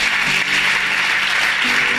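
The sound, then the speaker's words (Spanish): A church audience claps at a Spanish-language service just after a prayer: dense, steady clapping from many hands fills the whole stretch, with faint sustained tones underneath. “Todos decimos. Everybody says. Amén. Dele fuerte amen. Palmas al Señor Jesucristo.”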